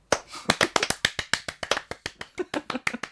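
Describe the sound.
Sparse clapping from a small scattered group: many sharp, separate hand claps at an uneven pace, with no voices over them.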